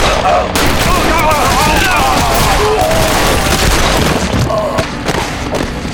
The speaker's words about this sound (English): The detective managed to get off the first two shots.